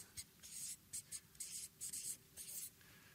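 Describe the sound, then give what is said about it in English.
A marker scratches and squeaks on a board as two words are written: many short, bright scraping strokes separated by brief pauses, faint and with no other sound. “Let me write two big words here for you.”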